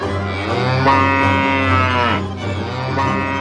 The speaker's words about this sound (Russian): Решила она, что все это ей только приснилось, и побежала скорее коровку-кормилицу